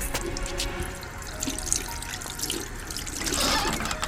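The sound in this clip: Water runs from a tap into a washbasin in a toilet room, a steady hissing splash with scattered drips throughout and a slight swell toward the end, with no voices.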